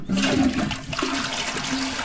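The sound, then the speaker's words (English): A toilet flushes with a rushing gush of water that surges at the start, then settles into a steady, hissing swirl. “Just like you can cause problems at home by flushing the wrong things down a toilet.”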